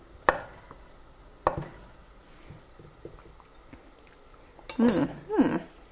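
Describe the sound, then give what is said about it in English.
Cheese being sliced with a knife: a few sharp, isolated knife taps separated by quiet moments, then two louder scraping cutting strokes close together near the end. “a couple more slices of cheese, because of course I can't help but eat a couple of them while I'm slicing.”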